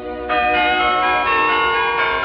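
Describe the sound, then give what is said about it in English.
Wedding bells ringing out, several loud overlapping strikes whose rich, sustained metallic tones blend into a continuous resonant peal. “The golden bells ring out on Cinderella's wedding day.”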